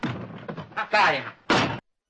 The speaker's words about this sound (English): Clouseau kicks the door. It swings back into him.